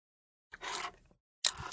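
Sucking through a vegan drinking straw gives two airy, hissing slurps separated by a brief silence, the second starting sharply.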